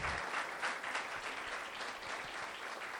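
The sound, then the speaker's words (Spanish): A church audience claps for God during a service, producing sustained, fairly faint applause: a continuous patter of many hands with slight swells in intensity, carrying on without speech. “Dale un fuerte aplauso al que vive y reina.”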